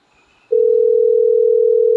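A telephone call tone sounds while a call is being placed: after a brief quiet moment, a single steady, loud electronic tone holds at an unchanging pitch until the end.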